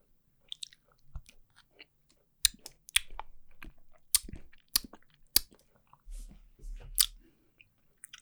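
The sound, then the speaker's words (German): Biting and chewing a firm, creamy, buttery cheese: many faint, irregular moist clicks and soft crunches spread over several seconds, with no talking. “Ja riecht immer noch sehr quarkig und ich werde ihn jetzt in diesem Moment probieren.”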